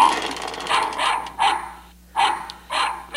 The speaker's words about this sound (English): That's a dog.